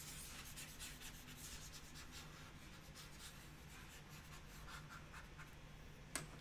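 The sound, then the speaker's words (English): An eraser rubbing out writing: a faint, continuous scratchy rasp of quick back-and-forth strokes. “Got that erased.”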